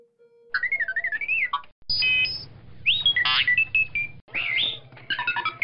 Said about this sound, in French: Oh non! Alerte de feu.